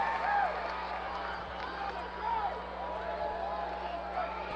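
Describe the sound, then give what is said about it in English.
Baseball stadium crowd noise in the bottom of the ninth inning, a steady, diffuse murmuring roar with faint voices rising and falling slightly throughout. “And the crowd making some noise here as the 35-year-old Tolpa faces Owen Miller, who is 0-2 with a walk.”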